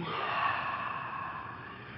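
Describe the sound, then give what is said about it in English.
A deep, slow exhale during a guided breathing and stretching exercise: one steady, airy rush of breath that fades slightly toward the end, heard alone. “And as you exhale, just let the arms float gently down.”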